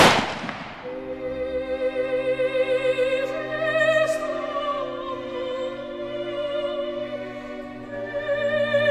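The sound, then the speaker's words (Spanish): A firing squad fires a volley of rifle shots at an execution, heard as one sharp, merged blast at the very start. Sustained low tonal music then carries on alone. “¡Pelotón! ¡Preparen! ¡Apunten! ¡Fuego!”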